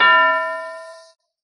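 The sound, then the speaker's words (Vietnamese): A small bell struck once gives a bright metallic ring, a clear harmonic tone that sounds loud at first and then fades steadily over about a second before stopping. “Một tiếng chuông lại vang lên”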